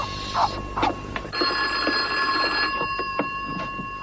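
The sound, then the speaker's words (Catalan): A telephone rings with a sustained, high, buzzy tone, preceded and followed by a few scattered clicks and knocks; no one speaks. “¿Crees que debemos contestar el teléfono?”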